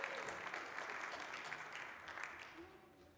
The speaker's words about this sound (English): But let's give our kids and our volunteers a hand as they make their way up here to the front.